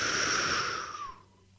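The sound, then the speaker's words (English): A deep breath drawn in, a long, noisy, rushing intake of air with a slightly wheezy edge that holds steady for about a second and then stops. “Breathe as deep as you can down to your diaphragm. 1, 2, 3. Breathe in.”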